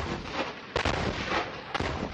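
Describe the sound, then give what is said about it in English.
Artillery fire and warplane strikes pounding Gaza: a dense, steady roar of low rumbling noise broken by two sharp booms about a second apart, faint overall. “Israeli artillery and warplanes are pounding Gaza in a bid to destroy a vast network of Hamas tunnels.”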